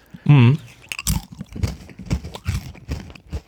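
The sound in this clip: Crunchy spelt crackers are chewed, giving a rhythmic series of many sharp, dry crunches and crackles after a brief voiced sound at the start.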